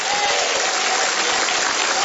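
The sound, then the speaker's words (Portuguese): A church audience claps its hands in steady, dense applause that runs without a break, with a crowd murmur mixed into the clapping. “Bate palmas, dá glória a Deus.”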